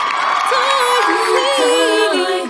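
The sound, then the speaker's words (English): A short, loud theme song played for a guest, with a sung melody of wavering pitch over a sustained high tone, lasting a couple of seconds before fading out. “You're so cool, you get your own theme song.”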